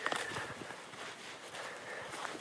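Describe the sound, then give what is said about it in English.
Footsteps crunch and squelch through half-melted snow on a forest floor among pine trees and moss in Maine, a steady series of soft, textured steps with a wet, gritty hiss, fairly quiet throughout and with no talking. “There was a big snowfall a couple days ago, and now about half of the snow has melted. Can you guess where I am?”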